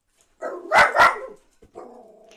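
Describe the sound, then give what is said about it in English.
Dogs bark, starting with a soft rising sound and then two loud, sharp barks in quick succession. A brief drawn-out whining tone follows, with no voices. “Dogs.”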